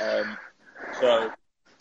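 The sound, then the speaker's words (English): Heavy, wheezy breathing into a microphone: a couple of loud, rasping breaths in quick succession, then a faint trailing breath after a short pause. “Who's that breathing?”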